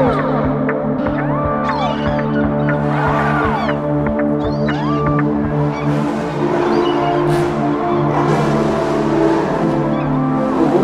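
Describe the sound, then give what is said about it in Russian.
Cars drifting on Nevsky Prospekt: engines rev, swooping up and down in pitch, while high screeching tyre squeals cut through, loud and dense throughout. “В эти выходные Невский проспект стал площадкой для экстремального вождения. Показательный дрифт прямо на глазах полицейских.”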